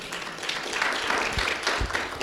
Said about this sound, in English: Give God a hand clap of praise for that.